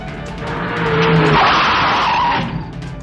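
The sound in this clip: A car drives with its tyres skidding on the road: a broad, hissing screech swells loud through the middle and eases off near the end, over a steady low engine tone.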